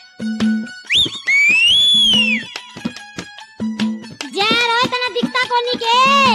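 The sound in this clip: A long, shrill whistle, like a teasing whistle aimed at a passing woman, swells upward and then slides back down for about a second. Rhythmic background music and other voices surround it.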